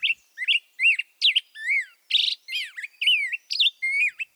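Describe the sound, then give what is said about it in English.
Black-headed grosbeak song: a rapid, rollicking run of many whistled, warbling notes that swoop up and down in pitch, delivered loudly and alone with only brief gaps over about four seconds. “And now, the up-tempo performance of the black-headed grosbeak.”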